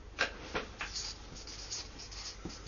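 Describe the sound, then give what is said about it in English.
Writing something down by hand: faint, scratchy strokes and taps of a pen moving in short irregular bursts, soft and steady with no talking. “Okay, so maybe let's write that down. One day and every day.”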